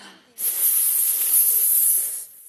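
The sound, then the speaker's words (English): A single sustained, breathy hiss lasting about two seconds, loud and bright, with an abrupt start and a fairly sharp cutoff, heard on its own with no voices. “Hissed Cleo supportively, out of sight.”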